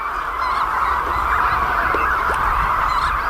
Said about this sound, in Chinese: 好在，它们已经听到了亲鸟觅食归来的叫声。